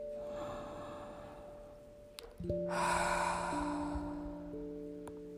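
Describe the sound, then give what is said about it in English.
A slow breath during a guided meditation: a soft, airy rush rises partway through and lingers for a couple of seconds over steady low background tones, with no voice speaking. “Another breath. And another breath.”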